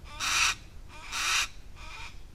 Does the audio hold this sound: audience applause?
no